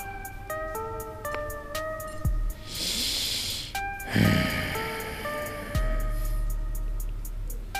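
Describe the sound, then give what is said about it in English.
A person breathes deeply in and out, a long breathy hiss followed by a lower, shorter exhale, set against steady sustained musical tones. “She's just not answering. She just breathes deeply in and out.”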